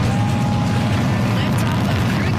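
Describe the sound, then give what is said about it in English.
Deep, steady roar of a SpaceX Falcon 9 rocket lifting off from Cape Canaveral with a Crew Dragon capsule on board. The dense, rumbling noise stays loud and continuous throughout, with no distinct separate bursts. “That is the sound of the beginning of a great adventure for Joshua Kutrick, the Canadian astronaut on board the Falcon 9 that launched this morning from Cape Canaveral.”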